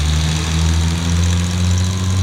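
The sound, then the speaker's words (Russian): A car engine runs as the car drives away, giving a steady, low rumbling hum with an even drone that stays constant in level throughout, with no talk. “Юнкер бросается назад к аппарату. Машина уезжает.”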